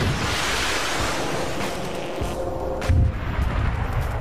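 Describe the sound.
Artillery fires on command during an infantry training exercise at JRTC, a couple of dull booms rising out of a constant, rushing wind-like rumble.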